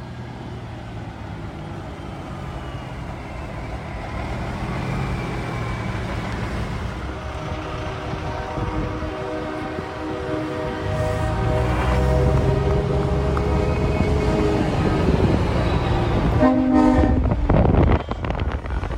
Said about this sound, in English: Monday night, a new group of truckers is just arriving. It's not stopping, it's only getting bigger. Just got word that this one's supposed to be 100 vehicles